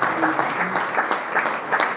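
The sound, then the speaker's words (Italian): Audience applause at an evening event in Legnano, Italy, honouring the town's mayor: a steady, dense wash of many hands clapping at even loudness throughout the short stretch. “grazie ancora, facciamo ancora un applauso al sindaco di Legnano per le sue splendide parole”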